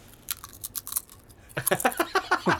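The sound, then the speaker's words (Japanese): Chipstar potato chips crunched close to the microphone: a quick, uneven series of crisp bites and crunches, followed by a steady run of shorter, more voiced bursts. “なんかこう食べてこう なんか、ね、あのチップスターがすげえちっちゃい音になってるね。”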